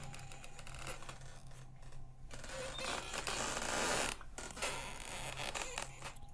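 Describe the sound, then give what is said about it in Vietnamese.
A wooden door creaking slowly open on a quiet night, a faint, drawn-out grating groan broken into stuttering, ratchety pulses that carry on for several seconds. “hắn đẩy tay vào cánh cửa phía bên trái thì tiếng ken két vang lên. Cánh cửa gỗ chậm rãi chuyển động, phát ra âm thanh giữa đêm yên tĩnh.”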